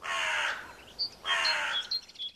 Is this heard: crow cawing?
yes